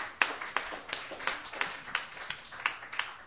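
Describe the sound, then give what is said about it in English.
Sparse clapping from an open mic audience welcoming a performer to the stage: about nine sharp, distinct claps at a fairly steady rhythm, with no voices over them. “Please put your hands together and welcome Jared to the stage.”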